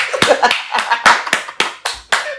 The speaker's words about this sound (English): Yeah, and then you look like stopping me from clapping. It was too loud.